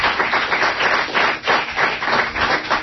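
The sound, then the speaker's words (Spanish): Listeners applaud at a live evening event. The clapping is dense and steady, swelling in even waves, fairly loud and without voices. “También te saludan todos los oyentes y lo van a hacer con un aplauso”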